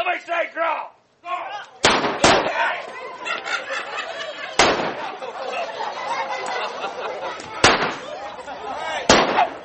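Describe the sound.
Gunshots ring out at a Wild West shootout re-enactment in Oatman, Arizona: five sharp bangs, two close together early and three spaced out later, over steady crowd chatter.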